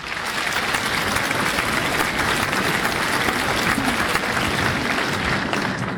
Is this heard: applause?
yes